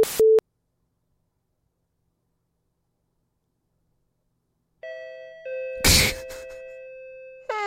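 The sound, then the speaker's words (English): A home doorbell rings with electronic chime tones that sustain and overlap after a long stretch of silence. A brief, noisy burst sounds in the middle, and another chime starts right at the end. “Of course my doorbell would ring.”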